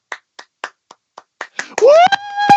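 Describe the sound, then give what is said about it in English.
Hands clapping to imitate a theater audience's applause: about seven sharp, evenly spaced claps, then a rising voiced sound and louder clapping at the end. “Captain America, it would start to die down and another portion would start clapping. So you hear,”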